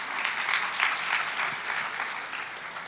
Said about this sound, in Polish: brawa